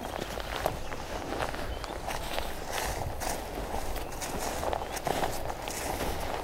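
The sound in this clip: Footsteps walking outdoors, faint and steady, with a soft continuous crunch and no clear separate steps, and no voices.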